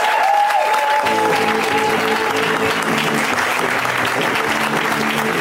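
Audience applause for stand-up comedian Jacqueline Novak as she takes the stage: dense, sustained clapping from a crowd, loud and even throughout with no letup.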